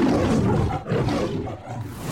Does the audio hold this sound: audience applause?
no